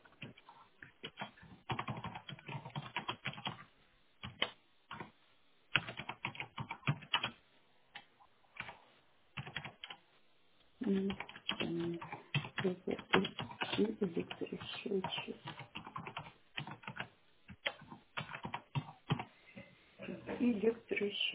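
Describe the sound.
Rapid typing on a computer keyboard as a utility meter sealing request is entered during a phone call. Many quick key clicks come in bursts with brief pauses, and a voice is heard at times.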